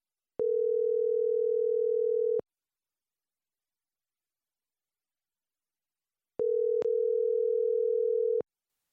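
Two long, steady, mid-pitched telephone tones ring as a call is placed. Each lasts about two seconds, with a long silent gap between them and nothing else heard.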